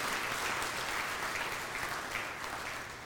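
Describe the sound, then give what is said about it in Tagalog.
A church audience applauds during a sermon, a dense, steady wash of clapping that holds evenly for a few seconds before easing slightly at the end. “Pwede bang palakpakan natin ang Panginoon for His wisdom?”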